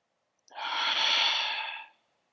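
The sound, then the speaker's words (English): A single long, deep breath taken during a guided breathing exercise: one smooth, airy rush that swells, holds steady for about a second and a half, then fades, heard alone with no talk. “again, take a deep breath. Okay. All right. A couple more. Okay, I'm in. Oh, more deep breaths?”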